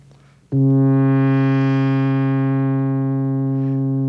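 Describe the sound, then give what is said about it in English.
A single synthesizer key is struck, and an envelope generator opens and then closes the low-pass filter. The sustained note swells brighter over a couple of seconds, then gradually mellows while still holding. “But if instead of my turning the knob, I use a waveform that goes up and then down every time I hit a key, we'll get a sound like this.”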